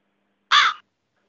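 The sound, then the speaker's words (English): A single harsh crow caw, loud and brief, standing alone against silence. “There's a crow in my room now. I did accidentally break the window, but a crow just came in.”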